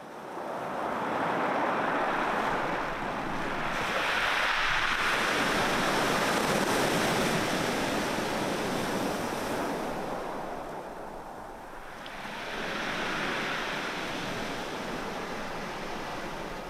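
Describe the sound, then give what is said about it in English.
Waves breaking on a pebble beach on England's south coast: a continuous broad wash of surf that swells and ebbs in slow surges, steady and fairly loud, with no voices. “sound of waves crashing on a pebble beach on the south coast of England.”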